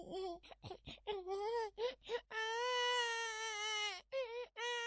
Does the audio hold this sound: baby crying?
yes